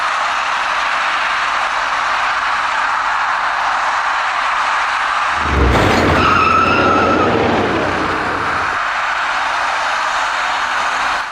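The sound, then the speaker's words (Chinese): Tire skid and collision of two white passenger cars merging from a highway ramp onto a main road: a low thump and a squealing skid lasting about three seconds rise out of steady, loud traffic noise. “两辆白色小客在路面上发生了相撞事故。”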